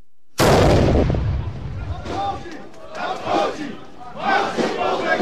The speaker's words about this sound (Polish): a sygnał do niego dał wystrzał armatni.